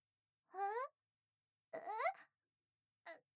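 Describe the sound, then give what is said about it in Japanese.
Someone starts to cry in three short, whimpering sobs with wavering pitch, separated by silence, quiet and without other sounds. “何泣き出してんの？何なのよ。ちょっとみんな知って泣かないでよ。”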